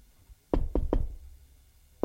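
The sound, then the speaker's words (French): Knocking on a door: three quick, firm raps close together, then a pause and a fourth knock, fairly quiet with no voices. “on a frappé à la porte”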